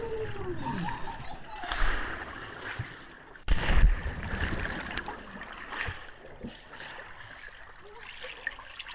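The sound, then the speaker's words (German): A cannonball jump into water, heard from underwater: one sudden muffled splash burst midway, set in murky, bubbling water noise that trickles on faintly afterward. “Wir haben ja eigentlich gerade mal versucht, euch was vorzuspielen, und zwar, wie man eine richtige Arschbombe ins Wasser macht und wie sich das Unterwasser für die Fische anhört.”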